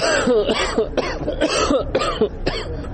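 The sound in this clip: A man coughs repeatedly, a hospital patient in Kabul with breathing problems blamed on polluted air. Several harsh, raspy bursts follow one another in quick succession, loud and with no talk.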